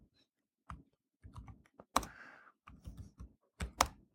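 Typing on a computer keyboard while entering program code: irregular bursts of soft keystrokes with a few sharper, louder clacks standing out, and no voices.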